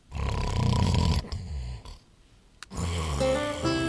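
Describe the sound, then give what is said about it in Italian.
Person snoring: a loud, rasping, roaring snore, a quieter breath, a short pause, then another harsh, buzzing snore. “russare non reca solo fastidio al compagno di letto, ma può essere rischioso per chi russa.”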